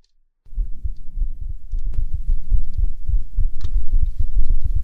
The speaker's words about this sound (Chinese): 那躺在我腿上，给你听心跳。